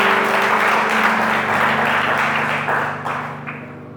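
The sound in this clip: Applause from an audience at a church service, a thick, loud patter over sustained musical tones, thinning and tapering off in the last second.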